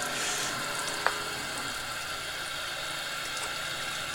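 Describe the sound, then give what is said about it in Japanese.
Hot water drained from an instant yakisoba noodle cup: a steady, broad hiss of pouring water that runs evenly throughout, broken by one brief click near the start. “今ね焼きそばを湯切りしてるこの湯切りをして一回湯切りした後にもう一回お湯を入れるんだよ”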